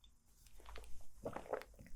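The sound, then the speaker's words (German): Quiet sips and swallows from a drink: soft, wet mouth clicks and small gulping sounds spread over about two seconds, faint and alone with no talking. “Und jetzt trinke ich erstmal wieder einen Schluck und du kannst kurz nachdenken.”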